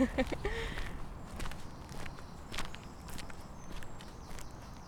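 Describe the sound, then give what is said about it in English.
Footsteps walking along a park path beside flower beds, a steady run of many soft, irregular steps at moderate loudness, with a brief voice near the start. “We're walking on Serpentine Walk right now”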